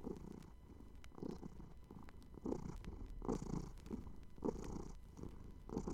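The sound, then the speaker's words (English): A contented kitten purrs in a soft, low, rhythmic rumble, with steady pulses of breathy vibration repeating about once a second. It is quiet and heard alone. “A contented kitten purrs rhythmically and steadily like this.”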